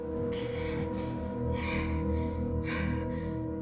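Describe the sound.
A woman breathes heavily in a bathroom stall, taking a few sharp, gasping breaths over a low, steady droning background.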